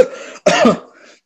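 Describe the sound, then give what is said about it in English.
A person clears their throat: a low voiced hum, a brief pause, then a harsh, loud cough-like burst that trails off into a faint rasp. “I got something in my throat, sorry.”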